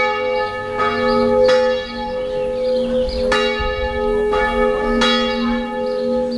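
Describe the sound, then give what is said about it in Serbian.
Serbian Orthodox church bell in Sećuj ringing to call the faithful to the summer feast of St. Nicholas, with several loud clanging strikes over a sustained, ringing tone that hangs between each blow. “Ovako je pozivalo zvono Sećujske srpske pravoslavne crkve vernike na praznovanje letnjeg Svetog Nikole”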